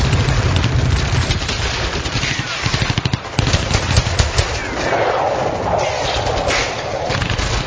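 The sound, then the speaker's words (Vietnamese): Gunfire from several guns in a forest at night: rapid bursts of automatic fire and scattered single shots over a dense, steady rumble, loud throughout, with a tight volley of quick cracks in the middle. “Năm họng súng địch ném về phía Chuẩn những viên đạn làm vỡ vụn trời đêm, nhưng chúng bị triệt hạ dần.”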